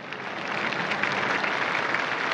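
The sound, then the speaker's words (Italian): Applause from a crowd of 12,000 in St. Peter's Square on the evening the Pope's death was announced, a soft, dense, unbroken patter that swells slightly after a brief start and then holds steady. “L'applauso dei 12.000 in piazza San Pietro scioglie nella serenità di un rosario”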